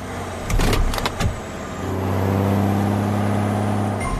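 A car sound effect: a few clunks and knocks, then an engine settles into a steady, loud hum.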